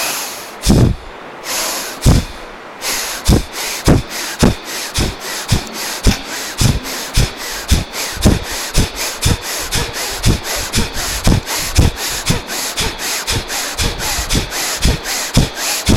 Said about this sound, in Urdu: زبان بند، آنکھیں بند، توجہ اللہ، اور کھینچنا ہے لفظ اللہ سانس کے ساتھ.